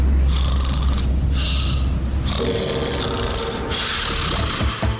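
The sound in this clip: Loud, rasping snoring repeats over several breath cycles, each one a coarse, rattling drone, with a harsher, longer snore partway through.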